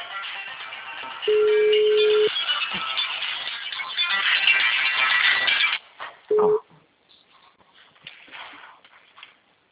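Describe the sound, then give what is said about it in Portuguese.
A telephone ringback tone plays while a call waits to be answered. A steady mid-pitched tone lasts about a second, and a second tone begins roughly five seconds later, with rustling and handling noise around both. “Agora acho que tá chamando.”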